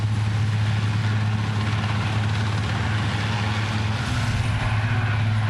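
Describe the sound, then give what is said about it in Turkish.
Steady rotor and engine drone from a rescue helicopter at a search-and-rescue scene after a plane crash, where the injured are being airlifted. A loud, continuous low hum with strong, even harmonics runs unchanged throughout, with no talk. “Şimdi ise helikopterle bu noktadan güvenli bölgeye götürülecekler.”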